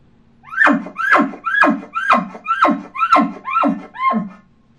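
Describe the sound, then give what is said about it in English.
An elk cow call chuckle is magnified through a call tube. Eight rhythmic yelps fall in pitch and repeat at a steady tempo, sounding fuller and more resonant while staying fairly even in loudness. “Now, once I put it through the tube, then you'll have that complete chuckle that's magnified through the tube, and it sounds like this.”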